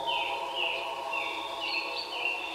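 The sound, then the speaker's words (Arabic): Chirping of a white bird perched in a tree, a children's story sound effect with a quick series of high, sweeping chirps that repeat steadily over a constant background. “ورأي عصفورا أبيض يغرد على شجرة، وتوقف يستمع إليه.”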